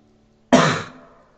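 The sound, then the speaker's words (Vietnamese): A woman clears her throat once, a short harsh burst that starts abruptly and fades quickly, alone against near-silence. “Nét mặt của Phương Bộ Lôi cứng đờ, chị ta đẳng hắng.”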